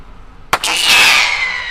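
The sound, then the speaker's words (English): A pyrotechnic cartridge fired from a gun on a runway to scare off ducks, a blue silver comet trailing sparkles: one sharp loud bang, then a sustained bright hissing whistle that carries on loudly to the end. “So she uses pyrotechnics shot out of a gun. This one is blue with sparkles coming out the back.”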